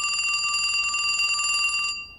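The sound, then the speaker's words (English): A telephone rings with one steady, bright, trilling ring that lasts about two seconds and then cuts off. “I was on my way out to join her when the phone rang.”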